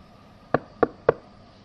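Knocking on an office door: three sharp, evenly spaced raps, fairly soft and heard alone against a quiet background.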